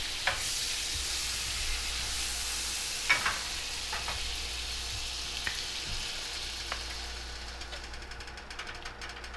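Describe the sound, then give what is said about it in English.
Butter sizzling in a frying pan before the last pancake goes in: a steady, bright hiss that carries through the whole stretch, broken by a few scattered clicks and light taps. “Can you put some butter in the pan and then we'll do the last cake?”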